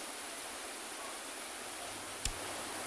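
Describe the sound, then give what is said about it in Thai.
Muddy floodwater flows rapidly into low-lying ground, making a steady, faint rushing hiss that holds level throughout, broken once by a brief sharp click near the end. “น้ำลักษณะมีสีขุ่นครับแล้วก็ไหลลงพื้นที่ลุ่มต่ำอย่างรวดเร็วก็เลยมีการบันทึกภาพนี้เอาไว้ครับ ตะกี้ยังไม่เยอะนะนี่ไหลบ้างๆแล้วอ่ะ”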